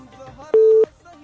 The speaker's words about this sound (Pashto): متاسفانه اړیکه پریشوه